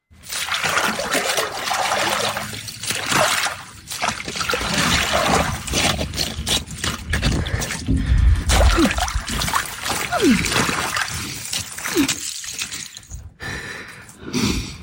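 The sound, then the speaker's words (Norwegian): Cold water sloshes and splashes as someone takes an ice bath, giving continuous loud trickling and splattering with a few heavier splashes through the whole stretch. “Lyden av noen som isbader, det der altså.”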